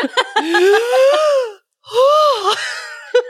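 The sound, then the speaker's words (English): Breathless, voiced gasps and panting from a person out of breath after running up and down stairs: a few strained, pitched breaths, a short silent pause, then more heaving gasps. “I ran up and down my stairs, so I'm also out of breath.”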